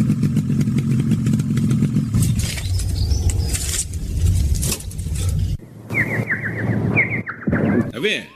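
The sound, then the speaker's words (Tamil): A motorcycle pulls over and stops at the roadside. A steady engine drone runs at first, then thins and drops away. High, squeaky chirping sounds follow near the end. “சரி நம்ம வண்டியை நிப்பாட்டிட்டேன், சரி சரி உங்கள்கிட்ட போவோம், ஓரமா வண்டியை நிப்பாட்டுவாப்பா.”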